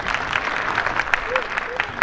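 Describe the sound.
Audience applause at a singing performance before the singing starts: brisk, steady clapping with sharp individual claps standing out, and a voice briefly audible through it.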